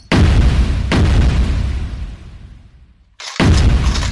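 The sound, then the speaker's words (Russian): Hand grenades thrown into the second floor of a house explode in a few heavy, deep booms, each trailing into a long rumbling decay. The last blast comes after a brief near-silence, and no voices are heard. “Потом гранаты во 2-й этаж. Все 4 влетели внутрь, и там рванули.”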